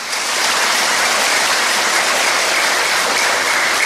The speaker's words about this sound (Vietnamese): nghe tiếng các vị vỗ tay là bắt đầu là sư thấy vui rồi đó ha